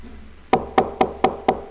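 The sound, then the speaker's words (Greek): Five evenly spaced knocks on a door, sharp and moderately loud, each with a short ring-off and no voices in between. “Χτυπάει ο κύριος.”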